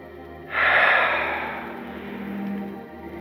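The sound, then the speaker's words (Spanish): A deep breath in and out during a relaxation breathing exercise: a sudden loud, airy rush of breath that tapers away, followed by a second, softer and lower swell of air before fading. “Ahora vamos a respirar hondo y soltar.”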